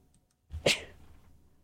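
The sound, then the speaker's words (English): A single sharp human sneeze, a short breathy lead-in and then an explosive burst that fades quickly, heard alone with no talking. “Oh, excuse me. Please excuse my sneezing.”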